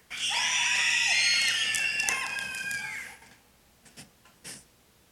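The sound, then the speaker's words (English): Children and youth at a Children and Youth Sunday gathering scream as loudly as they can, a single sustained, shrill group shriek lasting about three seconds that then fades into a few scattered smaller cries and noises. “I want all the children and youth in the place to make as much noise as you possibly can.”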